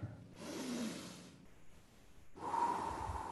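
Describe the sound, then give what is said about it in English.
A deep breath drawn in, a soft airy rush of air lasting about a second, followed after a short pause by a second, slightly stronger breathy rush, with no talk over it. “right now, just take a deep breath in”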